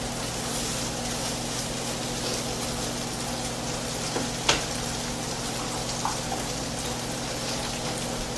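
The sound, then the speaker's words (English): Food sizzling in a pan while lettuce wraps cook, a steady, even hiss with a couple of faint ticks partway through. “I'm cooking right now”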